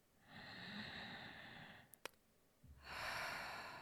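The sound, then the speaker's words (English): Two slow, deep breaths, drawn in through the lungs and let out through the mouth, are faint and airy, with long hissing strokes separated by a quiet pause and a couple of tiny clicks. “And now I'm taking some deep breaths.”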